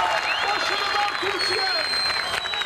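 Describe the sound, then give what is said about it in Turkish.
A large crowd with Turkish flags cheers and claps at Konak Square in İzmir, backing the national football team in front of a giant screen. The roar is dense and continuous, with shouting voices rising above it. “İzmir'de ise Konak Meydanı'nda dev ekran kuruldu. Çok sayıda kişi Türk bayraklarıyla tezahüratlarla milli takıma destek verdi.”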